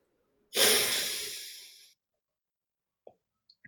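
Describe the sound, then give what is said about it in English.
One long, forceful exhale during a guided breathing exercise in a leadership talk, pushed out hard as clenched fists are released. A loud, breathy rush trails off gradually, followed by a couple of faint small sounds. “Now exhale back.”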